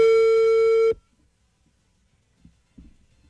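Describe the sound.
A telephone tone after a call is hung up: one steady, bright electronic tone with buzzy harmonics for about a second, then an abrupt cutoff into near silence broken by a few faint soft clicks.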